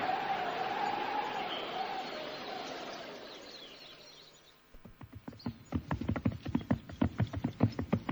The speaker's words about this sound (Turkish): İşte at üstünde biri bize doğru yaklaşıyor.